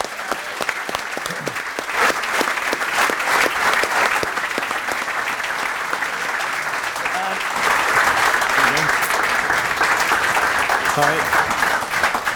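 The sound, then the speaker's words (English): An audience at a live show in Dublin applauds to welcome a former Galway Gaelic football player onto the stage, with dense, steady clapping that is loud throughout. “I think it's time to get him up. Michael Meehan, please put your hands together.”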